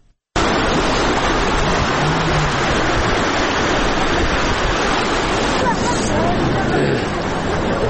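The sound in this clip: Rushing flood water after heavy rains in Uruzgan province, a loud, dense, unbroken roar of churning water that starts abruptly and holds steady throughout, easing slightly near the end.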